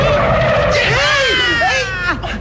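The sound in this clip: A bus skids as it nearly hits a child: a loud, continuous roar of tires on the road with screeching squeal tones that bend up and down in pitch, easing off near the end.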